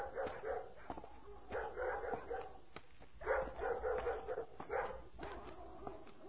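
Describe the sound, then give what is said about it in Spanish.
Dogs barking: many irregular barks and a few sharper yips come in quick, uneven runs with short pauses, fairly faint and with no voices over them. “se oye el ladrar de los perros.”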